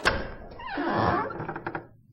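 A door opens with a dull thunk, then a longer smooth sliding sound and a few light clicks as it swings.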